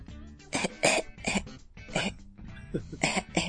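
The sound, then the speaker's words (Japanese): A person imitates someone choking and coughing with a rapid string of harsh, voiced coughs and throat-clearing bursts. The sounds are loud and heard alone. “ダメでした。真似したんですけどダメでした。 むせた藤宮さんを真似したこれ、ダメだったか”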